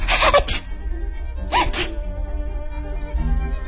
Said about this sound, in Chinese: 他整个晚上都在打喷嚏。